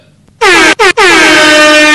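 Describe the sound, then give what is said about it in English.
An air horn sound effect blasts three times: a first honk, a very brief second, then a long sustained third blast. All three are piercingly loud and brassy, with strong harmonics and no other sound behind them. “You might have to turn your speakers down for that, because we dropped the air horn on that ass.”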